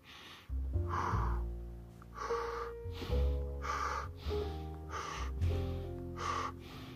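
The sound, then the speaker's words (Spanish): Fast breathing, drawn in through the mouth and pushed out through the nose, forms a rhythmic series of quick, sharp breaths, each a breathy burst in a regular pattern, over faint low steady tones. “Trata de comenzar eh, un poquito a incrementar el ritmo. inhala rápido y rápido.”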